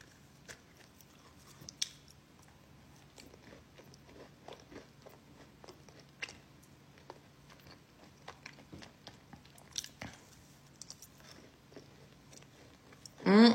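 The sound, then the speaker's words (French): Close-up ASMR chewing of a cookie: many faint, crisp crunches and wet mouth clicks scattered irregularly over quiet background, ending with a brief, much louder burst. “Je fais un ASMR de cookie”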